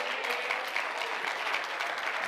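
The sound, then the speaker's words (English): Applause from a church audience clapping their hands during an evening service: a dense, steady wash of many hands clapping at once, loud and continuous throughout, with no talk over it. “Can you clap your hands”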